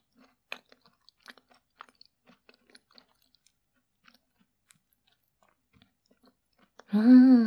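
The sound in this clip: Chewing a tart, with many small, crisp crunches and clicks in an irregular rhythm, faint and close, followed at the very end by a voice speaking.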